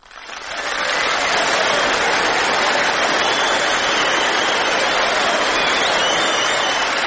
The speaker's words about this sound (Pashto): په ویاړې ښې چکچکې وکړئ.